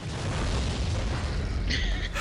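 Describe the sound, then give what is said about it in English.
A bomb goes off with a deafening, sustained roar: a dense low rumble and broad hissing noise stay loud for the full two seconds, with a brighter crackling burst near the end. “And then the bomb goes off. Yeah, then that wrecks. While we're having this discussion. And as you're having that discussion, holding out the pistol, this deafening noise, and everything goes black.”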